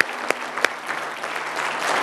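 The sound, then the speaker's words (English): Congregation applauding during a church service honoring a group of men: a steady, dense wash of many hands clapping, with a few sharper claps standing out near the start and no talk over it. “Men, I applaud you. We applaud these men.”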